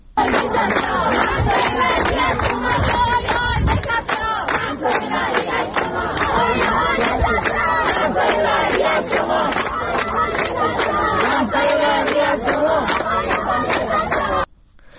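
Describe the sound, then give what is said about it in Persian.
Students at a protest rally in a university courtyard in Qazvin chant slogans in unison: a loud, dense crowd roar of many voices with a steady rhythmic pulse that continues unbroken for the whole stretch. “تجمع اعتراضی در حیات دانشگاه برگزار شد و اونها میگفتن که آی نشسته ها، محضای بعدی از شماست”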